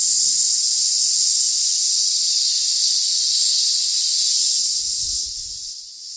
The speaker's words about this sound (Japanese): 今度はですね、スーっていうように音を出しながら吐き切っていきますね、吸って吐き切ります。